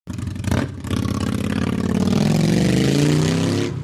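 A car engine revs and accelerates as the vehicle drives off, opening with a short burst and then a loud, steady roar whose note climbs gradually as it gathers speed.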